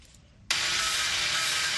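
Grinding on an iron door handle in a college class: after half a second of quiet it cuts in abruptly as a loud, continuous, harsh hiss with a steady low hum beneath, holding without pause to the end.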